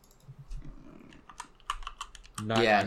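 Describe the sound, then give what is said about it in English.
Typing on a computer keyboard: a quick run of light, irregular key clicks, fairly quiet, with a voice starting to speak at the end. “Oh, whoops, I just typed in Minecraft.”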